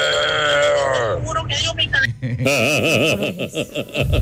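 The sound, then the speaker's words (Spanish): A person imitates a bull with the voice, first a drawn-out call, then a loud wavering series of bleat-like pulses. “Mi talento oculto es hacer como un toro.”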